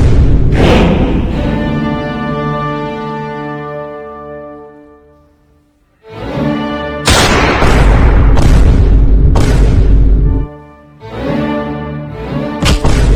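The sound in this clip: Several sharp gunshot bursts crack over a loud, sustained musical backdrop with deep booming, the shots clustered in the latter half.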